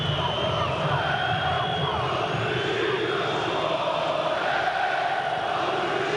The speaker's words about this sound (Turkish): Saldır Beşiktaş'ı voley tezahüratları Almanya'da Sinsheim'da Rhein-Neckar Arena'da.